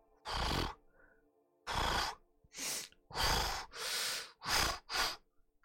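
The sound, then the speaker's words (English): Loud breathing and sniffing of an unseen creature at the edge of a clearing, imitated by a human voice: seven heavy, noisy breaths and sniffs in an uneven rhythm, alone with short quiet gaps between them. “kind of like this loud sort of breathing and sniffing”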